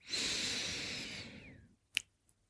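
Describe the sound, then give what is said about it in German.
A steady airy breath drawn in through the nose during a breathing exercise lasts more than a second and then tapers off, followed by a brief faint click and a small tick. “Und nochmal einatmen über die Nase.”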